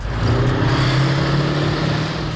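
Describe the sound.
An old Warrior armoured vehicle drives laps around an arena at a tank festival in Dorset, its engine a loud, steady, low-pitched drone with a rough rumbling edge, unbroken and without voices.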